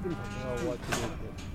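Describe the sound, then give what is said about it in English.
Cows moo from a farm herd of about 85 head: deep, drawn-out lowing rich in harmonics over steady background noise, with no talk. “here's the cows that we worked yesterday.”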